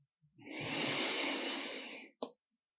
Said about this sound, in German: Und nochmal einatmen über die Nase.